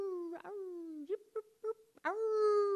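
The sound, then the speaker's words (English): Voices of a crowd of about 5,000 people at a camp quietly howl at the rising moon in a wolf-like imitation, a soft, wavering tone that slides downward, breaks into a few short yelps, then swells back into a sustained howl. “and I realize it's all of us, it's coming from us, and it's just a quiet, nice howl”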